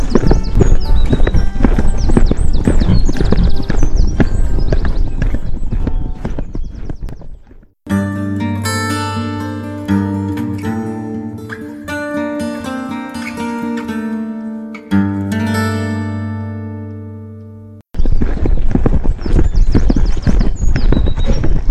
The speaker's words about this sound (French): au galop!